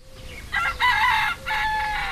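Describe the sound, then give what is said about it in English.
A rooster crows in a rural field in Ringdanga, West Bengal, India, at dawn around 6 a.m. among grazing cows: loud, drawn-out harmonic crowing in a few phrases, with no talk. “I'm walking through a field in Ringdanga in the Indian state of West Bengal. It's around 6 o'clock in the morning. I'm surrounded by cows who are grazing in the field.”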